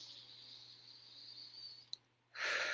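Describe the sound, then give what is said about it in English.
A single deep breath, drawn during a guided gratitude and relaxation moment, comes as a short, airy, full-bodied rush near the end after a quiet stretch of faint steady hum and a brief click. “So let's all just take a minute, take a deep breath,”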